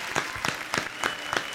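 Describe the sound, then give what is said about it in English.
Applause played as a sound effect: a fairly quiet wash of clapping pulsing in five evenly spaced, stronger bursts, with no voices over it. “Well, you've done played the applause.”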